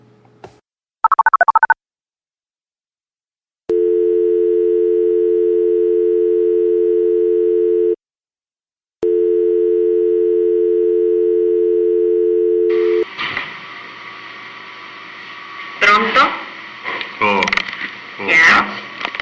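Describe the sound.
Ringback tone of an outgoing phone call: two long, steady low tones separated by a brief pause, followed by line noise and voices talking.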